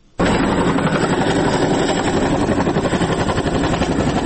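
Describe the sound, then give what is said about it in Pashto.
An American Chinook helicopter in flight over northern Helmand, heading to Sangin district: a loud, dense roar of engines and rotors that starts abruptly and holds steady, with a rapid rhythmic chop running through it. “موږ سنگین ته ځو خو تر یو کال وقفې وروسته د هلمند په شمال کې دغه نارامترین ولسوالۍ ته په یوه امریکایي چینوک هلیکوپټر کې”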